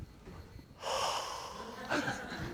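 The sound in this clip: A voice imitates breathing out on someone, giving a long, airy, hissing exhale that starts abruptly and swells into a stronger puff near its end.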